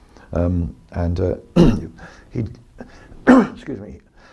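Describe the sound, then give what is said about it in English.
A man coughs and clears his throat near a microphone, two sharp harsh bursts scattered among his ongoing speech. “Excuse me. I'm trying to not cough into the microphone.”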